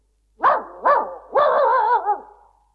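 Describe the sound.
Dog barking: two short barks, then a longer, drawn-out bark whose pitch wavers before it trails off. The barks are fairly loud and come alone, with no talk.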